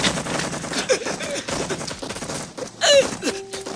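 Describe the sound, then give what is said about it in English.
Gunfire in a firefight: rapid, irregular bursts of shots crackle and overlap throughout, with a louder volley near the end. “Mazarov presses a hand against his throat as he returns fire.”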